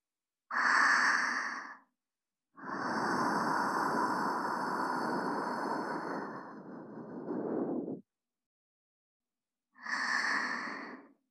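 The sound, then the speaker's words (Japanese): Gentle blowing into an ear after ear cleaning: three soft, airy puffs of breath, a short one, then a long sustained blow, then another short one, with no talking. “こちらもふうふうします。”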